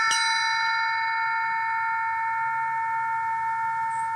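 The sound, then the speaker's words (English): A cowbell struck once gives a sharp metallic attack, then rings on in steady, bright overtones that fade only slowly over about four seconds, with no other sound. “I think this is a cowbell. This one had a great sound, you know.”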